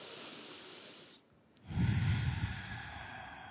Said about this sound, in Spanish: exhalando todo por la nariz. Nuevamente inhalan. Exhalan.